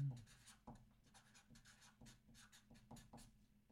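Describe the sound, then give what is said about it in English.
Pen writing on paper, faint scratchy strokes in short bursts with soft taps, quiet throughout. “Because if I don't write it down, I will forget it.”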